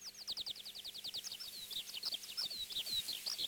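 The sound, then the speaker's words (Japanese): Begging calls of a single bird chick at the nest as its parent returns: a rapid, continuous stream of shrill, high peeping chirps, fairly faint, with soft lower clicks beneath. “父親が巣に戻るとピーピーと鳴きながら大きな口を開けています。”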